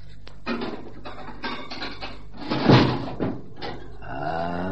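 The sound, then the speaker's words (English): Metal clunks and rattles as a bank strongbox is unlocked and opened, several knocks and scrapes followed by a drawn-out creaking scrape at the end. “And the strong box? Who's got the key to that? Come on. I have. Open it up, please.”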